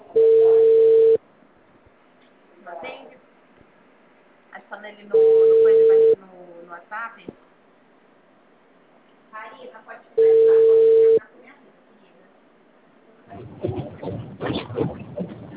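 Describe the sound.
A telephone ringback tone on an outgoing call: three steady, level tone bursts of about one second each, spaced several seconds apart. A person talks quietly in the gaps, and louder speech follows at the end.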